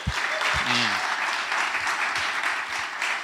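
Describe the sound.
An audience at a morning church gathering applauds to welcome a speaker. The clapping is a steady, full wash, and a brief voice is heard at the start.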